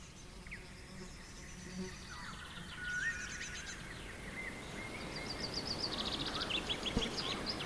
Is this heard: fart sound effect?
no